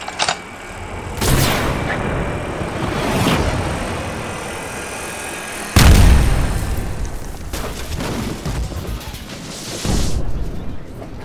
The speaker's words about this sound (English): K-12 explosive projectile. I spent most of my last bounty licensing this thing.